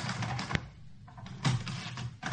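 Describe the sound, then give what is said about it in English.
A toy typewriter is typed on, giving a few irregular, light clacks and clatters, one sharper strike standing out among softer key taps. “It's a typewriter. Not a real one, though.”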